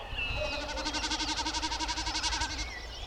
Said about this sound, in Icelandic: Hrossagaukur spila til dæmis sín einkennandi lög á stélfjæðrinar þegar hann steypir sér á flugi.